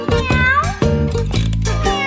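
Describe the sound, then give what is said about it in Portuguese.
Cat meowing in a rapid series of several drawn-out, loud meows that run into one another with little pause, forming a continuous wailing stretch. “E vem o gatinho.”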